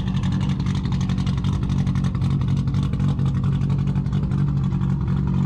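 A Toyota Supra fitted with a huge turbo accelerates hard, producing a loud, deep engine roar that is sustained steadily throughout.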